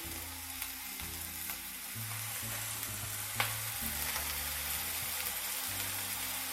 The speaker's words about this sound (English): Just kind of let them sear for about a minute, maybe two.